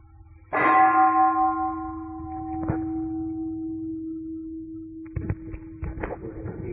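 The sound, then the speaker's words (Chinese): A bell is struck once, giving a bright, sustained ringing tone that slowly decays, followed by a sharp knock and later a few clattering knocks while the tone still hangs in the air. “比如这个声音，这个铃钟的声音会跑过来”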